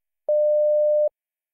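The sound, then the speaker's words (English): A single electronic telephone tone, one clean steady beep of mid pitch lasting under a second, alone against silence. “4. It's a phone.”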